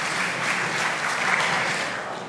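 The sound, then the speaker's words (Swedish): An audience applauds a participant with dense, steady clapping that holds for the whole stretch and eases slightly at the end. “du får ge en applåd för David.”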